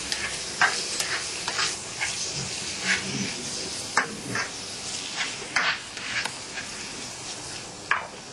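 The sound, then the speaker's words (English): A pot keeps boiling on a stove after the heat is switched off, with its lid set to one side: a continuous bubbling hiss broken by scattered sharp clinks and knocks. No voices are heard. “And it still continue boiling. It will be just fine. And if it's boiled too much, you have to put the cover on one side like this, yeah? Yes. So it don't boil over.”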